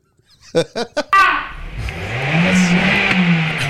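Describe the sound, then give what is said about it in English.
A car engine revving in a sudden loud surge, then settling into a sustained droning roar whose pitch climbs a little before levelling off, following a few short bursts of sound. “Why did they rev?”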